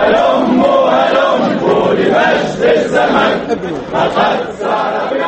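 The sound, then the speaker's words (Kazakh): Supporters of Tunisia's Ennahda party chant slogans in the streets to celebrate an election victory. Many voices blend into a loud, continuous roar of chanting that stays steady throughout, with no other sound standing out. “Жалпы Энахта партиясының қолдаушылары Тунис көшелеріне шығып, ұлттық ұрандарын айтып жеңістерін тойлап жатыр.”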